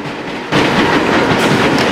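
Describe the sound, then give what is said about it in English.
A train pulls away from a station: after a brief quieter moment, a loud, steady rumble with rolling rail clatter starts abruptly and holds evenly to the end. “A train pulls away from a station.”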